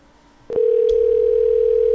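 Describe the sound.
A telephone dial tone heard while placing a call to an adult talk line: a sharp click, then a steady, loud, unbroken tone that holds without change.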